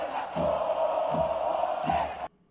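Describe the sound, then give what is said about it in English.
Stadium crowd in the opposing team's ground chanting insults at Maradona, a loud mass of voices swelling in three rhythmic pulses before cutting off abruptly. “That's the whole audience saying that Maradona sucks dick.”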